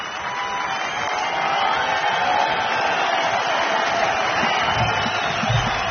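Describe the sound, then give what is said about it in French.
An audience at the 1984 Antibes Juan-les-Pins jazz festival on the Côte d'Azur calls for an encore with a dense, steady wash of clapping and cheering that holds without a break. “Le public de la Côte d'Azur en redemande, comme vous pouvez l'entendre. Et il va réussir à obtenir un troisième rappel”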